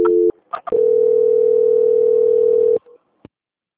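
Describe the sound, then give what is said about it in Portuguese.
A telephone line tone during a call transfer. It starts with a short tone, followed by a few soft blips, then a steady, loud, unbroken tone of about two seconds, ending in a brief blip and a click. “Tá, então só mais um momento que eu vou transferir a ligação. Transferência.”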